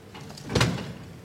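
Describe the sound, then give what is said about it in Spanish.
Cathedral doors swing open in a single soft swell of scraping, rumbling movement that peaks midway, faint and brief, with no talk. “Se están abriendo las puertas.”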